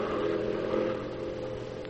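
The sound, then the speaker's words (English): A car on the road gives off a steady, mid-pitched engine rumble with a broad hiss, swelling slightly partway through and then easing off a little. “Here comes a car.”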